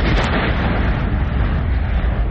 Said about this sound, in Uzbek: Qirg'izistonning Qadamjoy tumanidagi tog'lar orasida sovet ittifoqi paytidan qolib ketgan bombalar portlatildi.